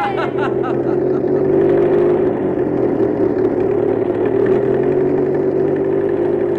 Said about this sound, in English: There they go, boys and girls. Sam and the crew are driving up the old mountain road.